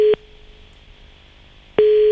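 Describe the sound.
Telephone line tone on a repeat call: a steady mid-pitched tone cuts off abruptly, a low quiet hum fills a pause of over a second, then the same loud tone returns.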